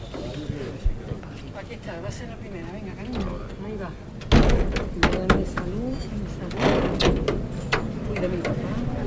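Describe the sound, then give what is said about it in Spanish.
Church doors closing during Holy Week. Creaking and scraping build to a loud heavy thud midway, followed by clattering knocks of the mechanism while people keep talking throughout. “Y ahora van a escuchar ustedes estas puertas de San Lorenzo, que solo se han abierto una vez esta Semana Santa. Y se están cerrando.”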